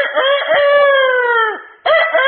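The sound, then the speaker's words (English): A voice imitates a rooster crowing: one long, loud, strained crow of about one and a half seconds that sags at its end. After a brief gap, a second shorter burst begins. “But a rooster, if you ever see him, crow, and he'll prance around a little bit, and then he'll stick that chest out and raise that head up real high”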